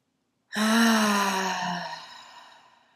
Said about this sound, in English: I'm going to do an audible exhale through the mouth. We're gonna do 3 breaths, 2 more.